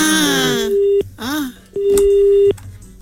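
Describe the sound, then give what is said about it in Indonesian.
A busy tone sounds on the line after a phone call is cut off: steady electronic beeps at a fixed pitch, broken by gaps, with a voice heard before and between them. “Terputus kan? Mak, tak tahulah Mak kenapa terputus.”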